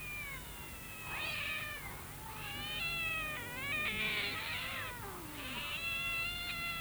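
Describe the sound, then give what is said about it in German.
Many cats meow at a cat gathering at a street corner, with overlapping high-pitched meows and drawn-out caterwauling yowls rising and falling in pitch, some louder than others, over a low, steady background hum. “Mensch, was ist da denn los? Nun guck dir das mal an. Eine Katzenversammlung. Eine richtige Versammlung.”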